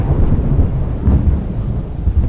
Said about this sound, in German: Ein sattes Grollen in unmittelbarer Nähe war zu vernehmen. Der Herr des Donners schien gesehen zu haben, wie sie ihren Weg fortsetzte.